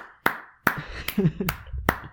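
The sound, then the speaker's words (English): Slow, evenly spaced claps, five sharp hits in all, with brief voices murmuring between the middle ones. “That's everyone applauding.”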